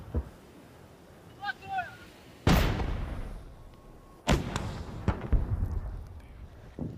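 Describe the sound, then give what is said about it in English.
Artillery and gunfire during a military advance on Kherson: two heavy blasts with long rumbling decays, then a few sharper, quicker reports that cut through the lingering noise. “We're advancing on Kherson. The orcs are firing everything they've got.”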